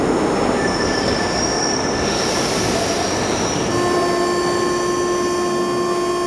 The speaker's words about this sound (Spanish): De pronto, mi tren apareció por el túnel y me calmé.